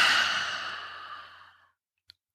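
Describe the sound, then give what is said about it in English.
A long breath exhaled through the mouth, a breathy hiss that starts fairly strong and gradually fades to silence over about a second and a half. “Inhaling three quick sniffs and exhale with your mouth.”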